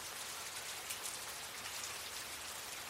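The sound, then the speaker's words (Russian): Raindrops tapping on a windowsill, a dense, even patter of countless small drops that holds a steady, fairly soft level throughout, with no voices. “Новое утро началось со стука дождевых капель по подоконнику.”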